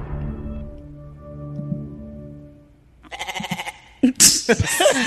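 A goat bleats a few times with loud, quavering, nasal cries near the end, after a low sustained musical chord that slowly fades out.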